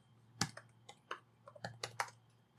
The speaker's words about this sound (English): So, I mean, let's type in fucking Patriot Front.